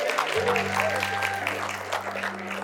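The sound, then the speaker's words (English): A church audience hoots, cheers and claps in a steady wash of crowd noise on day 21 of a fast, over a constant low hum, with some talking mixed in. “Congratulations on making it to day 21. Go ahead, give a louder hoot than that.”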